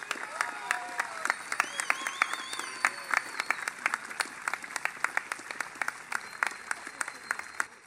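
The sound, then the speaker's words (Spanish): Strong applause from a crowd at a political campaign closing rally, dense overlapping claps sustained at an even level throughout without a break. “Fuerte ese aplauso entonces para la compañera Lorena Casco, lista 1969 del Partido Humanista.”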